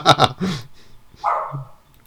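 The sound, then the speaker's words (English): A dog barks a few times in quick succession, then gives one longer, tonal bark. The barks are loud, with no talking. “Well, that's my dog.”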